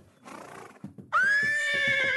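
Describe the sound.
A pony neighs, wanted as a holiday present, giving one loud, high, wavering whinny that holds steady over the second half. A few soft thumps come before it.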